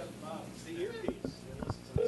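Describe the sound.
Telephone keypad tones as a number is dialed on speakerphone, a few short beeps at uneven intervals mixed with people talking.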